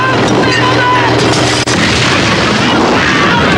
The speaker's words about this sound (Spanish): El semioruga estalla y los soldados saltan al suelo envueltos en llamas.